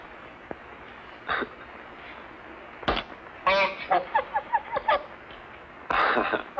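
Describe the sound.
A strange bird honks in short, nasal calls: a few separate honks, then a quick run of rapid honks and a final harsh burst. Between calls a steady low hiss is heard.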